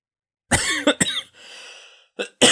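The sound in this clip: A coughing fit: a few loud, harsh coughs bunched together in a rapid, uneven cluster, with a quieter stretch between them and no talk over them.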